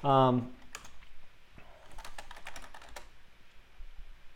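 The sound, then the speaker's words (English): Typing on a computer keyboard: a quick run of light, crisp key clicks in a short burst, following a brief moment of voice at the start. “So type in Newport Richie.”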